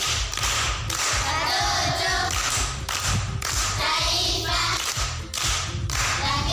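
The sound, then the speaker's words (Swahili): Audience clapping rewards a schoolgirl who answered a riddle: loud, fast, irregular hand claps with scattered thumps that run continuously throughout. “Makofi kwa shangazi.”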